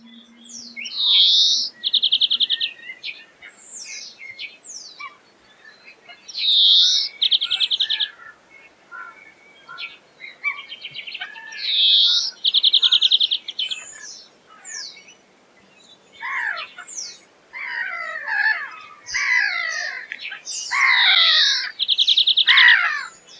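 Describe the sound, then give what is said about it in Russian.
European greenfinch song: many repeated phrases of high, bright chirps and buzzing trills, clear and alone with short gaps between them. “Зеленушка.”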